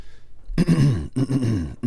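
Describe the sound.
A person clears their throat in a few rough, grunting bursts in quick succession, voiced and throaty with short gaps between them.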